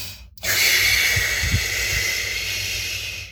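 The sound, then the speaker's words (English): A person breathes out completely during a breathing exercise after a series of rapid breaths: one long, steady, forceful exhalation, a loud airy hiss that holds for about three seconds and eases slightly toward the end. “And you do this 25 to 30 times, then you completely breathe out.”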